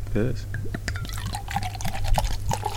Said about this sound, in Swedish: Så vi ser hur det låter när man häller upp i en plåtbäger istället för ett glas.